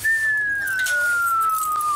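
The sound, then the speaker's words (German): A single high whistle tone holds steadily through the whole clip, drifting slowly and slightly lower in pitch, with a faint hiss behind it. “Dieser Pfeifton, der ist immer für die Kinder, für Papa gedacht.”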